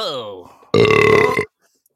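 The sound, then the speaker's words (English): A held-back burp that comes out oddly: a loud, raspy belch lasting under a second, right after a stretch of talking. Silence follows. “I was holding back a burp, and it made a weird, strange.”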